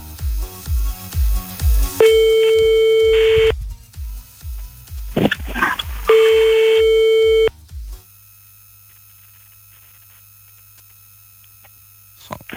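Unanswered telephone call: a quick run of short dialing beeps, then two long, steady ringing tones separated by a pause, after which the line falls almost silent.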